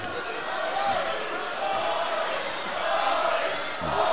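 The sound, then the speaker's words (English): A basketball is dribbled during a game, the faint repeated bounces sitting under a steady wash of crowd noise from the arena. “Still with the dribble. And he's going to play for the last shot here.”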